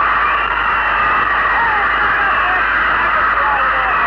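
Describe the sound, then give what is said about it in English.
Crowd yelling and cheering at an airport as a plane arrives and its passengers step off, a dense, continuous roar of many voices that stays loud and steady throughout, with a muffled, narrow tone and no clear individual words. “You can hear the yelling in the background. It's tremendous.”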